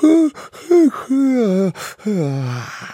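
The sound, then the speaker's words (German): A voice acts out an exaggerated, loud yawn in several long, groaning vocal stretches. Each stretch has a falling pitch, with short breathy gaps between them. “Nachdem er das gesagt hatte, gähnte er extra laut,”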